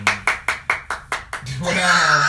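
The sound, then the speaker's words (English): A clap-track sound effect plays six sharp handclaps in a quick, slightly uneven rhythm, and then a voice starts speaking. “What was that for? That was a clap track. Oh, we really need one. We didn't even need an applause at that moment, though.”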